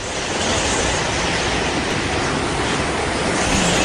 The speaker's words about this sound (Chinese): 哦，台风要来了哦，风有点大哦。